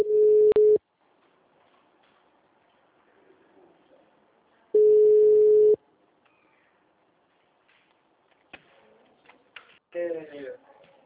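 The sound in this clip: Ringback tone on an outgoing telephone call: two long, steady mid-pitched tones separated by a silent gap of several seconds, followed by faint clicks and small shuffling sounds.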